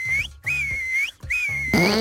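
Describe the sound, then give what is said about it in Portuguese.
Three whistled high notes come in quick succession, the first short and the next two longer, each ending in a small upward flick. A brief, fuller harmonic sound follows at the end. “isto são só três assobios mesmo”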